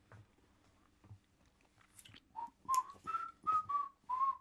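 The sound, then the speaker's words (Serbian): Whistled notes from a worker absorbed in laying boards for a stage performance: a short run of about six clear, steady tones in a calm, unhurried tune. Soft knocks and chewing-like rustles come before it. “Da, da, zviždanje je bilo dobro, ne tako veselo.”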